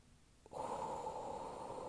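A deep breath drawn in: a steady, loud, breathy rush of air begins after a short quiet stretch and holds to the end, with no voices over it.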